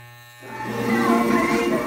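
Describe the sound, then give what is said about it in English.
Electric hair clippers buzz while shaving a woman's head, a steady, rasping drone that swells in after a low hum and holds at an even, fairly loud level. “The buzzing sound you hear in the background is from the clippers shaving her head.”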